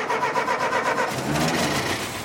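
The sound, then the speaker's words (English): A century-old Ford Model T engine starting, a steady mid-pitched mechanical churning that shifts midway into a deeper, rough low rumble. “Model T. It's one of those old-timey Fords with a small windshield and tires that look like they belong on a mountain bike. Even though it's 100 years old, it still starts.”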